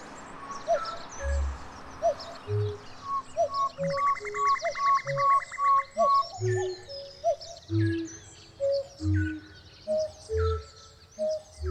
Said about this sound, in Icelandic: Miklabrautin hefur þannig mótað söng fugla í nágrenninu.